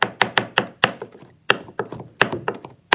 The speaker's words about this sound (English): Next, I'm going to chop the jewelweed.